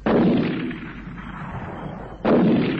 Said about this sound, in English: He's going to shoot at something. At the tree. The big one.